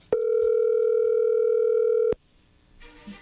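A telephone dial tone sounds as a call is dialled, a steady, loud, unbroken hum lasting about two seconds before it cuts off with a click, leaving faint rustling behind.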